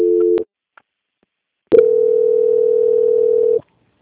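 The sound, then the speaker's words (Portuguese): Telephone tones as a bank's customer call is transferred: a brief tone cut off by a click, a short silence, then one steady, loud beep lasting nearly two seconds. “peço que aguarde em linha que vou transferir o contato para o controle de qualidade que dará continuidade à sua contratação. Só um momento, por favor. Ok. Transferência.”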